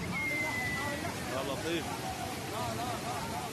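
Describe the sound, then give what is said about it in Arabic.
Torrents of rainwater gushing along main roads in Lebanon make a steady, dense rushing wash that never lets up, with people's voices and babble mixed in beneath it. “ما تستمعون إليه الآن هي أصوات شلالات غزيرة أحدثتها مياه الأمطار على الطرقات الرئيسة في لبنان.”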